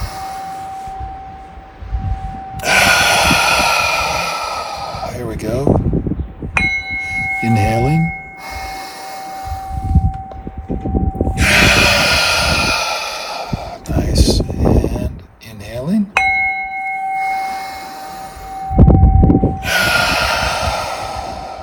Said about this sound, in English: We're inhaling. Whoops, here we go. And we are inhaling.